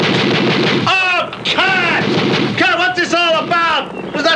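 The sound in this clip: Gunfire and heavy booming rumble during a bandit attack, loud and continuous, with raised voices calling out over the blasts.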